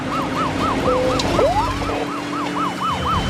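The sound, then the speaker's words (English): A police patrol car siren wails in a fast, evenly repeating up-and-down yelp during a pursuit of a carload of teenagers in Rogersville, Tennessee. It is loud and steady over a constant road rumble, with a brief rising whistle partway through. “A patrol car passes a carload of teenagers.”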